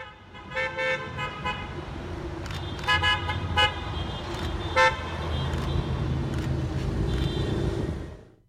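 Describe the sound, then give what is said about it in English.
Car horns honk from a caravan of vehicles driven by hotel workers through the streets of Waikiki, a few short toots and bursts standing out over a steady rumble of traffic. “The sign of COVID times was evident in Waikiki last week as hotel workers took to the streets, not walking side by side as in times past, but in a caravan of vehicles.”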